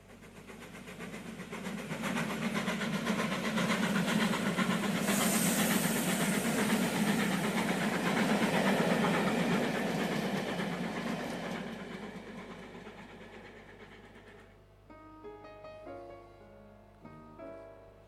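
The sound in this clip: Train sound effect: a steady rumbling, hissing roll that swells, holds and slowly fades over many seconds, followed by a few soft musical notes.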